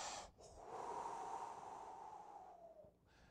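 A preacher imitating Jesus breathing on the disciples with a single long, airy exhale lasting a few seconds, breathy and fairly steady before trailing off.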